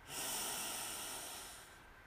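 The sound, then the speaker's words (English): One long, deep breath from a guided movement exercise: a steady, airy rush of air that swells quickly, holds, then fades gradually, heard alone with no talking. “Get that air out. Deep breath in and out. Deep breath in”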